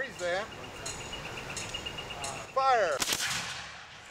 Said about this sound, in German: Wir schießen mit Musketen. Schnelles Nachladen zählt mehr als präzises Zielen.